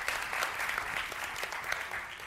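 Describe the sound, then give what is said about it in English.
Church audience applause fills the moment, many hands clapping in an even, continuous patter at moderate level, with a faint crowd murmur beneath it. “One of these older guys are just going to quickly run up and give them a round of applause. There we go.”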